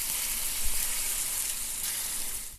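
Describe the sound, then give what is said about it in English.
Bacon frying in a pan gives a continuous, dense sizzle with fine crackling, steady and loud throughout with no voices. “I love this bacon. Bacon. Oh, tastes so good. Can you fry that up a little louder? Fry it up a little louder.”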